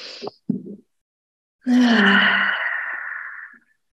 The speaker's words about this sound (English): we're just going to take three long, deep breaths.